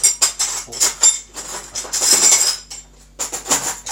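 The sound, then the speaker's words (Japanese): Knife and fork clinking and scraping against a plate while cutting pudding toast with a French-toast-like taste. Many sharp, bright metallic clicks come in irregular bursts, with longer scrapes as the knife saws through. “とナイフとフォークで食べていきたいなと思います”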